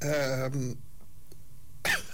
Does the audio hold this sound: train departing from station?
no